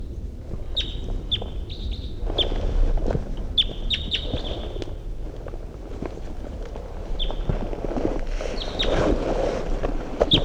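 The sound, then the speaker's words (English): A wild bird sings as it flies in, giving many short, high chirps in scattered clusters over gusty wind noise and low rustling, with no talking. “Wild bird's coming in. Wild bird. In flight. Wild bird song phrase.”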